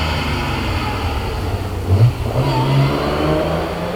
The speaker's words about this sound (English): Here's a country squire's vehicle. Austin Healey.